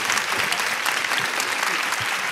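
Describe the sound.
Audience applause welcoming a speaker to the stage at a women's conference in Texas, dense continuous clapping that stays loud and even throughout.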